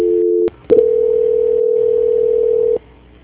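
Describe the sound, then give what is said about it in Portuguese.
A steady telephone line tone plays while another phone line is rung during a call transfer. A short tone breaks off, then after a brief pause one long, even tone holds for about two seconds before cutting off. “tô tocando o outro fone aqui”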